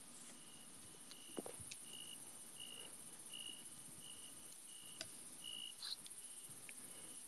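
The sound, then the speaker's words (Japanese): A cricket chirps faintly in short, evenly repeated high-pitched pulses over a steady thin insect hiss, with occasional soft clicks and rustles. “命だぞ、コオロギの赤ちゃんも。”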